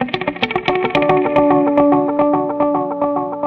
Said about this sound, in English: It's a twin channel analog delay with reverb built right into the signal flow.